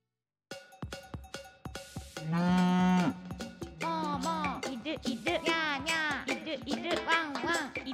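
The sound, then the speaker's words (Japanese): A cow moos, starting with one long, steady, low call, then breaking into many short, rhythmic moo-like calls that rise and fall in pitch. “うし、うし、もうもうもうもう”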